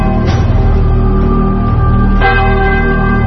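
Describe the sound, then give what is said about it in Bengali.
A distant church bell tolls the hour of twelve, with two deep, resonant strokes about two seconds apart, each ringing out into a sustained hum. “এই সময় দূরের কোন গির্জায় ঢং ঢং করে 12টা বাজল।”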